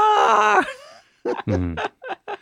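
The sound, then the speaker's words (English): A voice imitates a banshee's howl, a loud, sustained, wavering wail that slides down in pitch and fades, followed by a few short vocal bursts. “Yes, the Banshee's howl. The Banshee's howl. Howl. It's supposed to be a screech, but unfortunately I can only go as high as a howl.”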